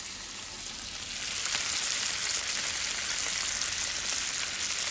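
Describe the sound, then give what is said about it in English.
Bacon sizzles and crackles in a frying pan, heard up close: a dense, steady hiss of spitting fat that grows slightly louder after the first second and stays even throughout, with no voices. “Get up and close so you can hear the ASMR of bacon. This is bacon, guys.”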